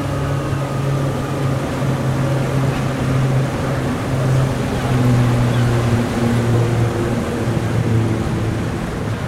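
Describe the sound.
A boat's engine drones steadily on a choppy sea, its low humming tones running under a constant wash of water against the hull for the whole stretch, with no talking.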